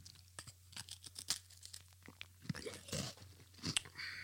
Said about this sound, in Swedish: Om man nu hör att någon äter pepparkaka, ja, då kan man tänka att det är jag eftersom du inte äter sånt.